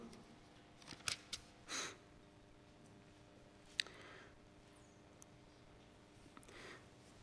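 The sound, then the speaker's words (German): Someone leafing through the pages of a Bible: a few faint, brief papery rustles and soft clicks spread across a quiet background, with no speech. “Ja, wir lesen zum Beispiel in Apostelgeschichte 2, Vers 47, lass uns da einfach noch ein bisschen blättern.”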